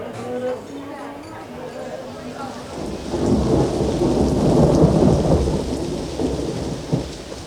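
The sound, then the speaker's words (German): A thunderstorm breaks over a terrace: heavy rain sets in as a broad, steady rush with low thunder rumbling beneath it. A voice is heard briefly at the start before the storm swells to full loudness. “kehrte auf die Terrasse zurück, als gerade ein Gewitter losbrach.”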